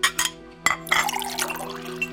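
Tea being poured: a few faint clinks of crockery, then a steady, soft trickling stream of liquid that runs on to the end.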